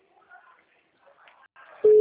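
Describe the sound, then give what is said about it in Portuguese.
A telephone tone heard while placing a call cuts in loudly and steadily at the very end, after a couple of seconds of faint, scattered sounds. “Eu tô ligando pra galera lá do Maranhão pra ver se alguém me atende.”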